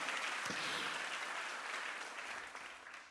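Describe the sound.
A church audience applauds to praise God: soft, continuous clapping that gradually tapers over about three seconds.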